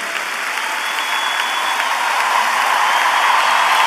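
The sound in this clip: Applause from a crowd, dense and steady throughout, holding an even level with no clear pauses between the claps.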